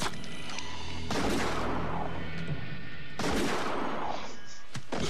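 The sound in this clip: Gunshots in a horror film scene: two loud, booming blasts with long decaying tails over a dense, continuous soundtrack bed.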